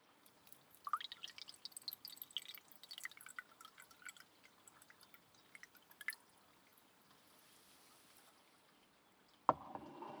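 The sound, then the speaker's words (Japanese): Blended tea being poured into a cup makes faint, irregular trickling and dripping with many small splashes. A louder splash comes near the end. “ブレンド茶もそろそろいい頃合いでしょうから、こちらのカップに注いでおきましょう。”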